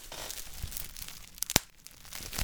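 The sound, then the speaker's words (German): Plastic foil crackling, faint overall: two sharp, brittle snaps stand out close together over a soft, steady rustling hiss. “dafür kannst du nochmal einmal mit der Folie knacken.”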